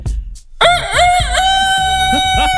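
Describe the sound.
A person vocally imitates a rooster crowing, with echo added: a short breathy sound and a pause, then one long, loud, wavering cry that rises and dips in pitch and trails off with a reverberant tail.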